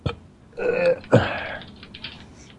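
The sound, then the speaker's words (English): A person burps aloud: a brief click, then two voiced, throaty belches, the second stronger and rougher, with quiet pauses between them. “I'm burping at you.”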